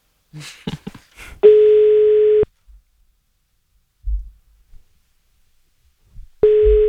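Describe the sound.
A telephone line tone sounds while a call is placed. A few short clicks come first, then a steady low tone lasts about a second, falls silent, and returns near the end.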